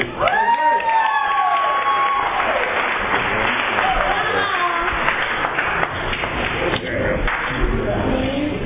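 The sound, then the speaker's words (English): An audience applauding to welcome a speaker at a Valley Group meeting: sustained, steady clapping, with some cheering and voices over it at the start. “Please offer a warm Valley Group welcome there to Gary.”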